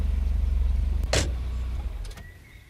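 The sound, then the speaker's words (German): A car approaches with a humming engine, a low rhythmic drone that holds steady, then a brief sharp whoosh cuts across it before the sound eases into a quieter, fading tail. “Ein Auto nähert sich brummend.”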